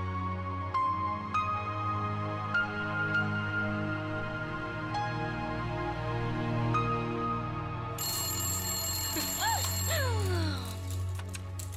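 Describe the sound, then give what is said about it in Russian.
A telephone rings as a mother calls, sounding as a steady, repeating electronic ringtone over a low hum. Brighter warbling tones take over near the end. “Мама звонит Кате.”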